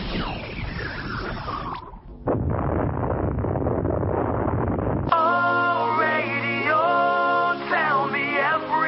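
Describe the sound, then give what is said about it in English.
A synthesized magic missile spell being cast: a descending whoosh opens, then a sustained roaring noise burst, then warbling electronic tones that wobble up and down to the end. “Goddamn casting magic missile.”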